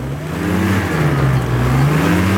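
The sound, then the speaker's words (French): Light aircraft engine at takeoff, a loud, steady droning hum with a strong low tone that holds firm throughout, alone with no voices. “Une fois les explications données, c'est l'heure du décollage.”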